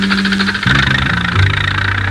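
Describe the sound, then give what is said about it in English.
A tractor engine roars to life, shifting into a loud, steady rumble with a rough, knocking throb that continues alone to the end. “Suddenly, The tractor roared to life.”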